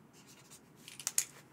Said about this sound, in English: Oh, are you writing?